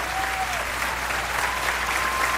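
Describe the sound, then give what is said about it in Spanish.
Applause from an audience at a Christian worship service, offered to the Lord: loud, even clapping that runs without a break, then cuts off abruptly at the end. “ese aplauso al Señor.”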